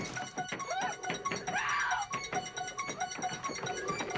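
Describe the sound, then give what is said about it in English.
Banging on a glass door: many sharp thumps in quick, uneven succession, fairly loud, over a busy background with a brief tonal sound in the middle. “She bangs on the glass door.”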